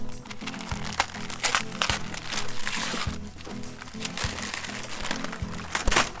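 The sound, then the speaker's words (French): Paper crinkling and rustling as a large gift package is unwrapped, a steady run of crackly tearing and crumpling over a low rhythmic background. “Oh, voilà un cadeau. Nous allons l'ouvrir. Il est assez grand.”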